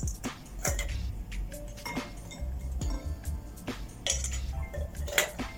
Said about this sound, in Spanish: Vamos a poner unos hielitos en nuestra copa para que esa sal se vaya disolviendo en el juguito de limón.